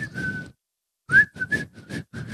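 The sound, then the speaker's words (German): Someone whistles a song's refrain while laughing. Short, breathy, broken phrases follow an opening note and a brief silence. “Ich kann nicht pfeifen, während ich lache.”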